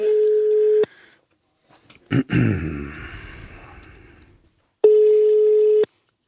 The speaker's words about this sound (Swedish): Jag slår en signal här, ska vi se.